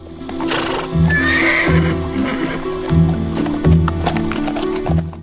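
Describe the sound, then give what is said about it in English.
Hooves clip-clop as a horse walks along a dusty mountain trail. The steady plodding steps are accompanied by a whinny near the start. “Joshua follows the trail at walking pace. He rides his horse to the brow of a hill.”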